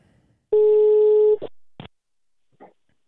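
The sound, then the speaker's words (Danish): A telephone rings on an outgoing call with one steady, loud electronic tone lasting under a second. A few short, quieter clicks follow, and no voices are heard. “Nu ringer vi til aftens rockspert. Så ser om han er hjemme.”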